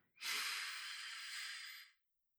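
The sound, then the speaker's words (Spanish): Deep breath drawn in through the nose during a relaxation breathing exercise: one long, airy, hissing inhale of steady strength lasting almost two seconds. It is quiet and heard alone, with no talking. “Pongo un colchoncito y me pongo a ver la ventana. Y me pongo a respirar. Inhalo todo lo que puedo.”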